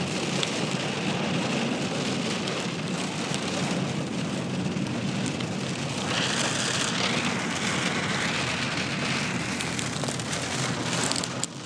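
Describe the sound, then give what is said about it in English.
Heavy rain falls in a steady, dense, unbroken hiss of drops that stays loud and even throughout, with no voices. “that's the rain, folks. It really is it.”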